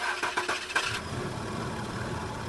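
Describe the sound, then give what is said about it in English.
Old car engine starting: a faint burst of rapid cranking pulses gives way to a low, rough, steady engine rumble. “Do you have a car that sounds like this?”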